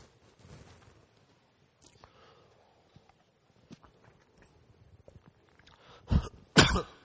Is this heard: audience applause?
no